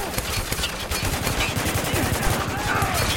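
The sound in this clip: Shotgun fire in a tense combat scene from a French-language action game: dense, relentless blasts and cracks pile up into a loud, continuous barrage with no clear gaps.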